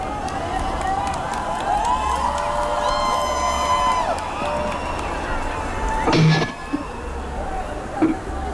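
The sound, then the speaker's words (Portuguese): An audience cheers and applauds for the band Nervosa: a steady, dense roar of clapping and crowd noise, laced with high whoops and shouting voices, swells briefly in a louder burst near the end before settling back. “Salve de palmas pra Nervosa! Nervosíssimas!”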